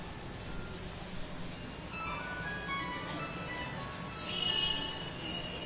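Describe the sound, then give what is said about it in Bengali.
A telephone ringing with a melodic ringtone: a faint tinkling tune that rises out of a steady wash of background noise for a few seconds. “কার বাজছে telephone?”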